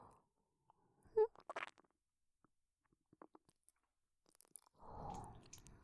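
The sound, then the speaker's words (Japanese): Wet ear-licking ASMR mouth sounds: soft smacks and slurps in a few short bursts, scattered tiny clicks, then a longer moist rustling stretch near the end, all faint and with no speech. “お耳も舐めていきます。勇者様のかわいいお耳、いただきます。”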